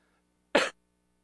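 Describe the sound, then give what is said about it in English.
One short, abrupt cough, a dry burst of sound lasting a fraction of a second, heard alone between stretches of near silence. “Before I do that, I need to cough.”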